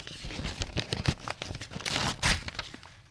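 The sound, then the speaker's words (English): A bag holding something big and soft, a fake-hair wig, is torn open with many quick crinkly rips and rustles of varying loudness, fairly quiet overall. “The next pocket has something big and soft in a bag. If I tear the bag open, I'll be able to see what it is.”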